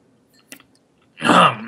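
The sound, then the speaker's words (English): Ice crunching as it is chewed out of a cup: a couple of faint small clicks, then a loud, harsh, gritty crunch that holds for about half a second. “So, I keep chewing ice out of my cup, which is a bad thing to do while you're recording me.”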